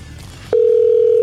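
Telephone dial tone while placing a call: after a brief low, quiet stretch, a steady single-pitched tone starts abruptly and holds loud and unchanging to the end.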